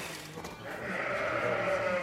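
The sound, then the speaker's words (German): Shorn sheep bleat in a pen, one wavering, nasal bleat rising out of a soft background and holding steadily to the end, with no voices. “Manche schauen sich um, blöken, suchen.”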